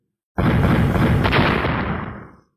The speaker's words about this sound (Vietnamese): Hai quyền va chạm với nhau